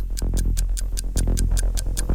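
A quiz game's clock ticks fast and steadily, many crisp even beats over a low, sustained musical bed, with no talking.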